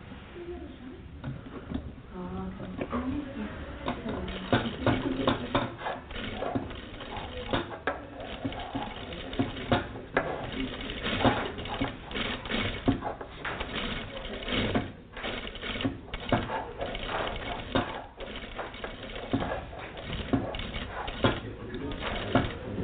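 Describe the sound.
A sewing machine stitches a slow curve, its fast mechanical rattle and patter running steadily through the whole stretch with small shifts in speed.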